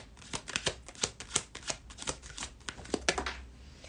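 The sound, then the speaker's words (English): Cards slipping and falling onto the floor during a card reading: many light, crisp papery slaps and flicks in an irregular, rapid series, sharp and distinct, with no voices. “Oy, all these cards are falling on the floor.”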